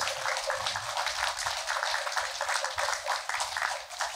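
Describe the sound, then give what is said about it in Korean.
Applause from an audience honoring a Buddhist monk at a fundraising gathering for a temple project: a steady, dense patter of many hands clapping that holds at an even, moderate level throughout. “정덕스님께 큰 감사의 마음을 담아서 큰 박수를 보내주시고”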